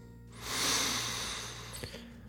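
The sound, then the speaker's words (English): A slow inhale during a guided breathing exercise: one soft, airy breath drawn in over about a second, swelling and then easing off, alone over a faint low hum. “Let's breathe together. In.”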